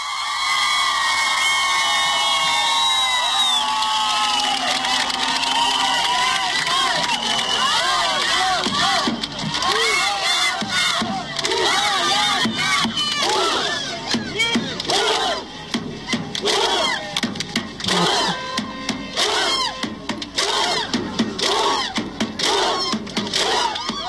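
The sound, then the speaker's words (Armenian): Crowd of citizens in Republic Square whistling, cheering and applauding, a continuous loud roar of many voices and dense clapping, with shrill whistles standing out early on. “Դուք այժմ լսում եք, թե ինչ է կատարվում Հանրապետության հրապարակում, քաղաքացիները սուլում են, ուրախանում են, ծափահարում են։”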